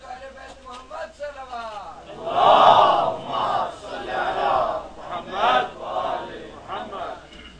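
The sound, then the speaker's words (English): A crowd loudly recites salawat in unison, its voices swelling into several forceful chanted waves after a single voice speaks at the start. “if you can, all come forward and say one loud salawat. Allahumma salli ala Muhammad wa ali Muhammad.”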